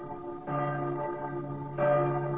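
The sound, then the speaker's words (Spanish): Church bells ring in the city of Quito, with two loud strikes about a second and a half apart, each leaving a sustained, humming resonance that carries on between them. “ciudad de San Francisco de Quito, cuando las campanas tañen,”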